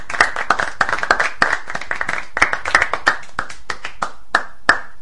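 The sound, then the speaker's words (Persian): A small child claps hands, many sharp, uneven claps in quick succession, some louder than others, with short gaps between bursts. “خب کوچولو شما چرا اینقدر داری دست میزنی قربونت برم؟”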